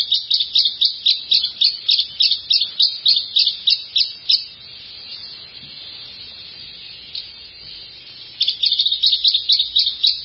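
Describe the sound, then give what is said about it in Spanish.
A white-throated tyrannulet sings a rapid, even run of high, sharp chirping notes, then pauses and resumes with a second burst of the same quick notes. The song is clear and stands alone with no voices. “Entonces es un sonido no tan complicado, más simple. Y esta ave, cuyo nombre científico es Mecocerculus leucofris, es pariente del sirirí, de la misma familia.”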